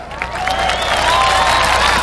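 Audience applause for a Commission on Audit team at a gathering about a former administration's anomalies: dense, sustained clapping that runs evenly throughout, with a faint tonal whine above it.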